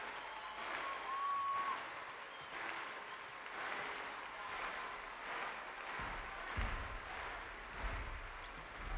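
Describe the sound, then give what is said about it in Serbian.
Applause from an audience, steady sustained clapping that fills the whole stretch at an even level with no pause. “Aplauz još malo.”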